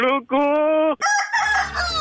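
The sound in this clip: A rooster crows loudly in a strained, harmonic-rich call that breaks into a few segments before ending on a higher, rougher stretch.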